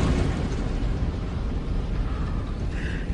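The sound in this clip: A car crashes over area railings in a loud, sustained roar of crunching, rumbling noise that stays dense and even for the whole clip, with no talk.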